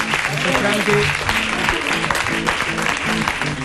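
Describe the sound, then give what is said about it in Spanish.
An audience at a live music venue applauds during a late-night music show, with thick, continuous clapping that runs throughout and voices faintly mixed beneath. “Y bueno, un aplauso por favor al maestro Franky”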